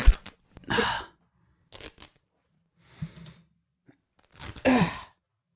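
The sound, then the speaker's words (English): A shirt being ripped open: five or so separate bursts of harsh fabric tearing with silent gaps between them, the loudest rips coming near the start and the end. “Are you ripping your shirt open like the Hulk?”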